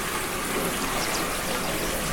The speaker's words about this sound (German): Da war ein langer und großer Fluss zwischen ihr und der Blume.